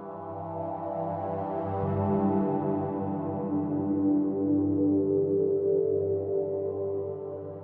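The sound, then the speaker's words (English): A synthesizer with its filter tweaked produces a sci-fi style tone: a quiet, sustained low drone whose overtones slowly morph and shift, swelling slightly in the middle. “Essentially, I have this instrument where you can tweak the filter and it makes this sound. You've probably heard it in sci-fi shows before.”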